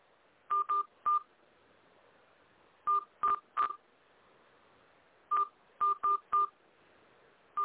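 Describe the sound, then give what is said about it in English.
Telephone keypad tones as a host PIN is entered: short, clear, identical-sounding beeps in quick clusters separated by brief pauses, loud and clean against near silence. “Please enter your host PIN. When finished, press the pound key.”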